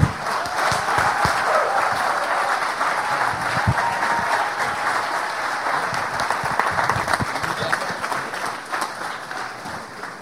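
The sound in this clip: An audience gives dense, steady applause to welcome a guest preacher. The clapping holds for about ten seconds and eases slightly at the end.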